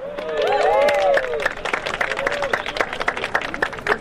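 Crowd at an Amazon strike rally in Germany on Black Friday, with shouting and cheering at first, then dense, lively clapping that continues to the end.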